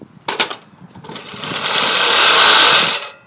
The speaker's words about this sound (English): I'm going to get myself one of those push lawnmowers. And if you don't believe me, just have a listen to this. I'm actually in my shed right now.